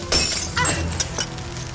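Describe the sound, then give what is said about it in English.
Glass shatters to free someone from tied cords: one sudden, loud, bright crash, followed by a few lighter, sharp clinks as the noise fades. “Break that glass and use it to cut these cords.”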